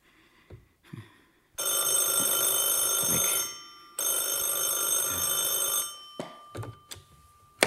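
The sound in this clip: A telephone bell rings in two long, loud bursts separated by a short pause, with a few soft knocks and clicks before and after.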